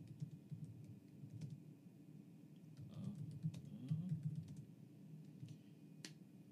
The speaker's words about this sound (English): Now, if you look, even if I type it in right now, wait for it.